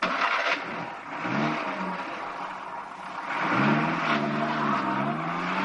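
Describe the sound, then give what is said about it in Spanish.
Engine of a 1950s convertible car speeding out of a village through narrow streets, its note revving upward twice in rising surges over a continuous busy background. “Salen del pueblo a toda velocidad circulando por las estrechas calles.”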